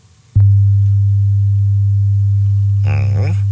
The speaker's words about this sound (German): Und da haben wir für euch schon mal kürzlich diesen einen Ton erwähnt, ja, den japanische Forscher entdeckt haben. Der hat so eine spezielle Frequenz, exakt 100 Hertz